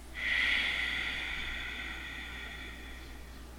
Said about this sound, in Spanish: es respiro desde el abdomen, inflo mi pancita y exhalo.